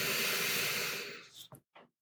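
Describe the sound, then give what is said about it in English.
A person taking a breath: a long, airy rush that slowly fades, followed by a few short, soft puffs. “Just take a breath with me.”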